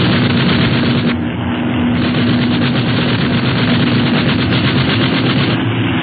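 Rapid gunfire is aimed at a ship, a loud, dense, continuous rattle of shots with a steady drone underneath throughout, and no voices are heard.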